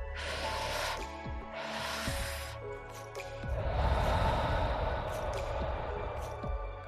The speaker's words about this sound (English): Take two quick breaths through the nose and let it out in one long, slow breath, like this.